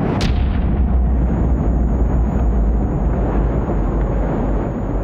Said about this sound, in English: The first atomic bomb is dropped on Hiroshima.